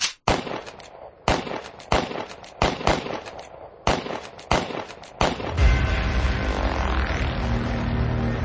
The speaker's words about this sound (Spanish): El militar José Hidalgo, sin poder controlar el miedo, sacó su pistola y vació el cargador sobre el misterioso personaje.